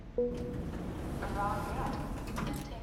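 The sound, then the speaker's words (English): Elevator doors opening by an intake bay, marked by a brief tone and a clunk. Soft sliding and a few faint mechanical knocks follow. “Later, the elevator opens by the intake bay doors.”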